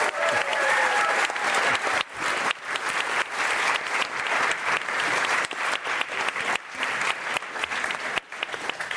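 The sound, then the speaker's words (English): An audience gives a guest a round of applause: dense, steady clapping for about nine seconds with only brief dips. “All right, let's give it up for Kia. Thanks for doing this.”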